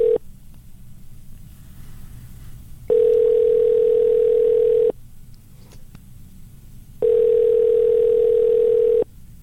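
Telephone line tone after a call is hung up: a steady, pure, mid-pitched hum in long on-off bursts of about two seconds, separated by stretches of faint line hiss.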